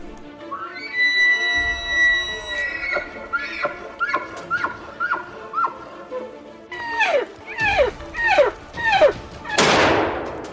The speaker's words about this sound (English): Got him, dropped him. Nice shot, buddy.